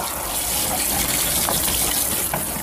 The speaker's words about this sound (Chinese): 我听不清，我洗澡呢。